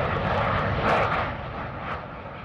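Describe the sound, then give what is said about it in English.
A B-2 stealth bomber, a flat black delta-wing aircraft, takes off from an air force base in Missouri with a loud, steady engine roar that swells briefly and then eases slightly, with no voices. “To this day, the flat, black, delta-shaped bombers blast off from that base into the skies of Missouri's 4th District.”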